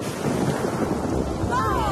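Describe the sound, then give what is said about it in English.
Rain starting to fall makes a dense, steady hiss with a low rumble underneath, loud and even from start to finish. “Oh! It has started to rain. Quickly, everyone, back in the car. My goodness, it's raining.”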